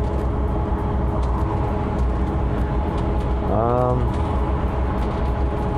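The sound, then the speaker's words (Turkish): Steady low rumble of engine and road noise inside a semi-truck cab driving on the road, holding an even level throughout. “Şu anda araç kullanıyorum. Yoldayım. Tır şoförüyüm. Tır kullandığım için.”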